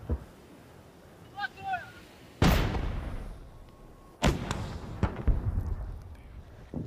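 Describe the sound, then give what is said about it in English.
Gunfire and artillery fire during a military advance on Kherson: a few sharp, loud cracks with rumbling tails break through quieter stretches, and two land close together near the end. “We're advancing on Kherson. The orcs are firing everything they've got.”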